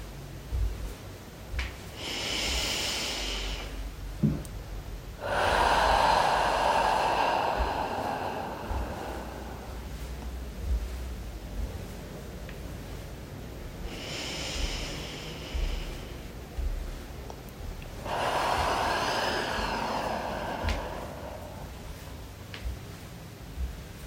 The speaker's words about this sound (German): Jetzt atmen wir wieder tief ein und aus